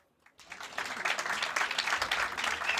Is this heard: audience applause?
yes